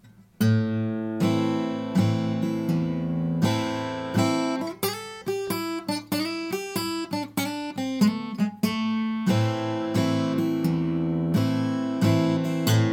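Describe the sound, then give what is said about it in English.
Resonator guitar strums an A minor chord, then picks a quick run of single notes and returns to the A minor strum; the notes ring bright and metallic, with a steady, loud strumming rhythm at both ends. “So I'm going to come into the lick from strumming that A minor chord, and then I'm going to exit the lick going back to that A minor chord.”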